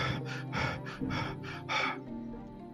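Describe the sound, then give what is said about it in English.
A voice imitates a frightened state with short, quick breaths: a fast run of soft, airy gasps in even rhythm, fairly faint, then quiet. “So instead of the long deep breaths, it's short, quick breaths,”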